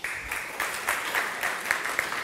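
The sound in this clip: Audience applause welcoming a speaker at a live event, a steady wash of many hands clapping at even intensity throughout.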